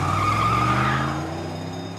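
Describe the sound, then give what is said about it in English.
A car peels out of its parking spot and speeds off, with squealing, skidding tires over a loud revving engine that eases slightly toward the end. “She taps it with a hammer and turns the ignition. The car peels out of its spot and speeds past the staff parking sign.”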